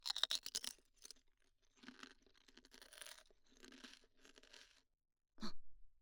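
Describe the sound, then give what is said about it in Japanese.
Consommé-flavoured potato chips are eaten with disposable wooden chopsticks, giving a series of faint, dry crunching and chewing bursts separated by short pauses. A final brief crunch follows a moment of quiet. “これおいしい。やっぱりポテチはコンソメよね。コンソメ。割り箸で食べれば手も汚れない。”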